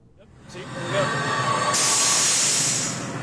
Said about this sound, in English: That's the sound of a pneumatic controller in action.